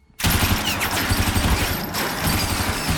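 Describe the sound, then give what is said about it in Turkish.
Machine gun fire erupts in a dense, continuous rattle, loud and unbroken from its sudden start almost to the end, a harsh wall of rapid reports without pause. “Duyduğum makineli tüfek sesi mi Smith?”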